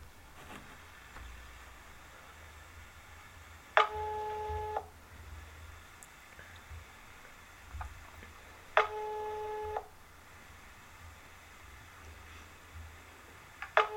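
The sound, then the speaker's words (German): An outgoing telephone call ringing: evenly spaced electronic ring bursts, each about a second long and roughly five seconds apart, two full rings and the start of a third, over faint background hiss. “Ich würde gerne meine Freundin Tanja Algorithmus anrufen.”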